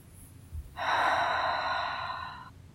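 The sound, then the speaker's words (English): A single deep inhalation during a guided body-awareness exercise: a long, airy, steady breath lasting nearly two seconds, fairly loud and alone, swelling slightly then easing off. “And make a circle, round and round. Deep breath.”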